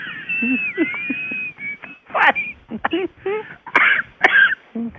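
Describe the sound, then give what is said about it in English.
Coughing and throat clearing break into a conversation several times, short rough bursts mixed among people talking. “You're coughing.”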